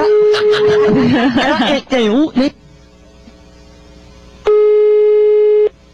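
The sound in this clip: A telephone rings on an outgoing phone call with a steady, level tone. It first runs briefly under a voice talking, then sounds alone as one longer, louder tone after a quieter gap.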